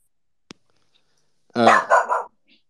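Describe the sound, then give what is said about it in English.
A dog barks in a single short, loud burst of a few quick barks, heard alone and preceded by a faint click. “that's my dog”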